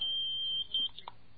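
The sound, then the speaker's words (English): A telephone line gives a call-waiting signal: a single steady, high-pitched beep of moderate loudness lasts about half a second, followed by a few faint, brief noises. “I'm being beeped.”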